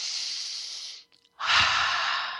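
Two long, deep breaths rush as broad, airy hisses, each lasting about a second and separated by a short pause. They are quiet, with no talk.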